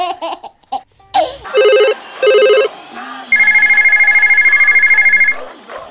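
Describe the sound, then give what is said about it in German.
A telephone rings with an incoming call: two short tonal ring bursts, then a longer, rapid warbling trill, after a few brief voice-like sounds. “Ja, Ute ruft an.”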